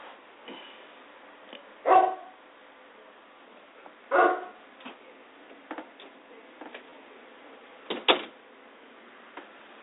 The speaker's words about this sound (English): That was the dog barking, so nothing to be alarmed about.